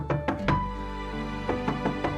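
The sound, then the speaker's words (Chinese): Knocking on a door comes in two short groups of soft, hollow raps, separated by a pause, over a sustained musical tone. “你可听到，在你的心中有微小的叩门声，”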